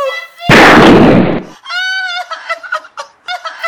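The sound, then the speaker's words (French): A gunshot as an agent fires at a servant at a window in a staged drama: one loud, harsh blast lasting nearly a second, followed by a voice crying out in a string of short, high, broken wails. “Un agent tire sur la servante à la fenêtre de gauche.”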